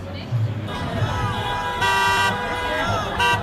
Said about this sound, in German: Vorbeifahrende Autos hupen als Zeichen der Zustimmung.